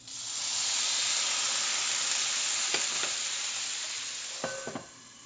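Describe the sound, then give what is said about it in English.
Shrimp infused with smoked ghost chili sear on a grill pan in a loud, steady sizzle, with a few light clinks and scrapes from the pan. The sizzle fades away at the end. “I'm going to flash that onto the grill pan and then put the cover on for just a couple seconds. I don't want the shrimp to get overcooked, but I want them to get as much infusion of this smoked chili as possible.”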